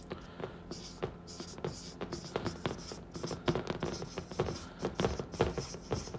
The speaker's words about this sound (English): All right, I'm just gonna write that down.